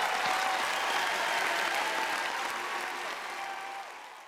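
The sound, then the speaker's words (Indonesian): Crowd applause, a steady, dense burst of clapping at a consistent level that gradually fades toward the end. “Harus dikasih applause itu. Iya nih, applause nih.”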